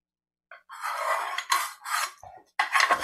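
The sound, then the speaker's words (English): Fudge mixture being scraped out of a pot into a pan, heard as a run of rough, rasping scraping strokes in short bursts with brief pauses between them. No voices are heard. “what will not pour into the pan directly. And so I'm just scraping it out.”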